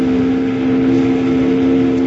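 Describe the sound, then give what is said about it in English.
A steamboat whistle pulled by its cord aboard a cargo boat in a river channel, sounding as one loud, steady, low-pitched blast that holds without a break. “Jingles, grab that whistle cord and pull it.”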